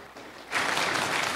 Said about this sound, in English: They're applauding you.